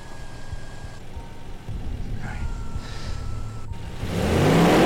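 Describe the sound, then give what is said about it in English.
A car engine accelerates gently as the car eases forward under a little gas. It starts as a low, steady rumble, then swells noticeably louder and fuller near the end. “Only needs a little gas, just to ease the car forward.”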